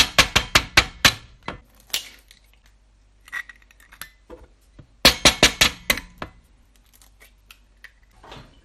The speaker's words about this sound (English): One and a half teaspoons of baking powder and two yolks. So I'm just going to separate the eggs.